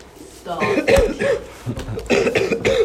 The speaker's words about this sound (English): Stop dying, bro. I can't help it. Yes, you can. Starts coughing up blood.